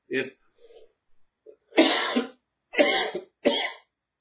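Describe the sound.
Coughing from allergies: a few harsh, abrupt coughs and throat-clearing bursts, separated by short silences, loud and alone with no talk around them.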